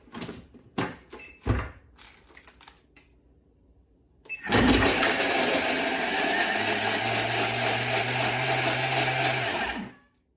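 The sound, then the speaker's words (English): Thermomix food processor chopping onions and garlic: a few light knocks and clicks, then a loud, steady, high whirring grind that runs for about five seconds and cuts off abruptly. “I use a Thermomix. I'm a great fan of a Thermomix. I know they're expensive, but they do what I want. And in this case, you can hear how I'm going to chop this.”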